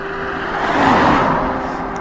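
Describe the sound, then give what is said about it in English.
A small diesel BMW 3 Series car passes by, its engine and tyre noise swelling to a peak near the middle, then fading away. “Blue, a small BMW. Diesel, maybe a 3 Series.”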